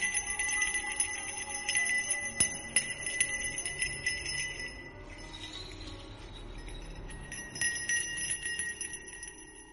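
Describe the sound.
A small bell is shaken slowly by hand, giving a bright, high jingling of many overlapping tinkles that pauses briefly midway before resuming.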